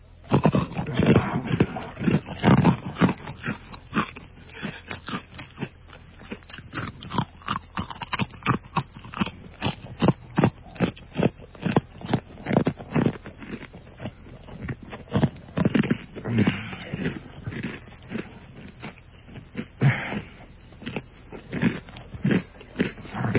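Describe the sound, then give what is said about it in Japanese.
Someone at home eats iwaokoshi, a hard Osaka puffed-rice candy, with many loud, rhythmic crunches and chewing bursts alongside heavy breathing through the nose. “今回は食べたもの、まあ場所は自宅なんですが、食べたものがですね、大阪名物の岩おこし。 ほう。 食べております。こちら聞いてもらいましょう。”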